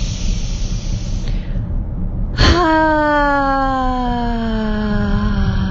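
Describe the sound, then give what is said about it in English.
A loud voiced exhale during a guided breathing exercise. A soft breathy hiss comes first, then a sudden sustained vocal tone that slowly sinks in pitch and holds for about three seconds. “I'm going to do one more breath. Please, on the out breath, make a sound even louder.”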